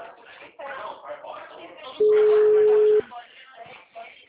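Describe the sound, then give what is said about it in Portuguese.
A telephone tone sounds after a call drops: a single steady, mid-pitched beep lasting about a second. People talk before and after it. “a ligação caiu, me desculpa, tá?”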